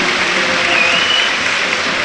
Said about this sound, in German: Ja, das Publikum quittiert das auch mit Standing Ovations.